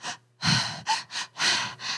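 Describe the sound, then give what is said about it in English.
A voice imitates a baby's gasping breaths as it comes down from a tantrum and tries to catch its breath: six breathy, shaky gasps in an uneven rhythm, fairly loud and with no other sound. “when babies are coming down from their tantrum and they're trying to catch their breath and they're like,”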